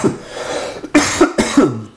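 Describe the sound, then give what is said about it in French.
A bout of seasonal coughing: a few harsh, throaty coughs in quick succession, fairly loud and alone, with short pauses between them. “Pardon, la petite toux saisonnière.”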